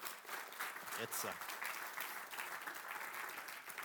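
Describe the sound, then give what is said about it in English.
Applause from an audience in a church for a speaker who has just addressed them. Dense, steady clapping runs throughout, with a voice briefly audible over it. “And if we could just give him another round of applause for”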